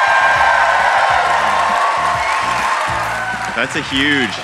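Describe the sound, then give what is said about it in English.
A large live audience applauds and cheers at a live event in Atlanta, a dense, steady roar of clapping and whoops with a voice talking over it. “We are joined by a huge crowd, or as we like to say,”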